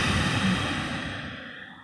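A deep breath during a guided relaxation exercise, heard as a soft, breathy whoosh that gradually fades away over about two seconds.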